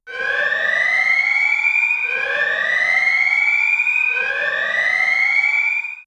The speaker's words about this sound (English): the alarm was deafening to my hawk hearing. The sound screamed up from the hole in the ground.